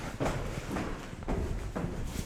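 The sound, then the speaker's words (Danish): Footsteps of someone walking down a flight of stairs: a few soft thuds in an uneven rhythm. “kan du gå ned ad de her trapper uden at blive forpustet? Ja, jeg prøver her.”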